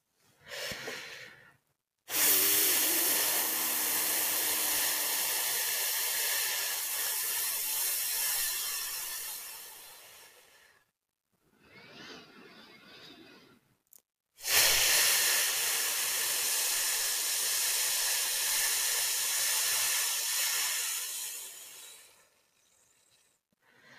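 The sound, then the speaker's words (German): Someone does a breathing exercise, letting out a long, nearly voiceless exhale on an "f" sound. A steady, breathy hiss lasts about nine seconds, then repeats, and each hiss follows a shorter, softer breath. “Und jetzt atme tief ein und atme fast ohne Ton aus dem Laut F aus.”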